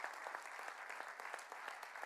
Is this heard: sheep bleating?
no